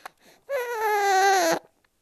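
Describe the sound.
A baby cries after a Bexsero vaccination during lockdown. A short whimper comes first, then one loud, sustained, strained wail of about a second that stops abruptly.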